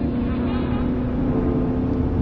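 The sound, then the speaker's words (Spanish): Car engine droning steadily as the vehicle is driven fast, a constant low hum with no clear rise or fall over the whole stretch. “Él sigue conduciendo a prisa.”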